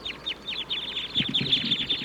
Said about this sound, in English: The wild birds in the treetops are calling now.